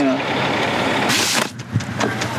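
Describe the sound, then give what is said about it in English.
A supply truck arrives with a steady, rumbling road noise, and a short bright hiss bursts out partway through. “The supply truck that everyone's been waiting for has finally come in.”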